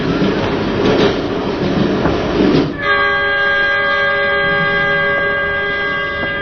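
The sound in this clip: A train runs in a comedy sketch set aboard a passenger train on Spring Festival Eve: steady rumbling rolls for a few seconds, then a sustained multi-tone horn sounds and holds to the end over the continuing run.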